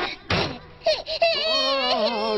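An animated baby cries in a cartoon series, starting with short sobbing bursts and then settling into a sustained, wavering high wail.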